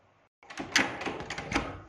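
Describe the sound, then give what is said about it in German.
A small locked door is tried and pushed: a clattering, scraping burst of wood and metal with a couple of sharper knocks, moderately loud, with no voices. “Ist schon gut, ich öffne die Tür.”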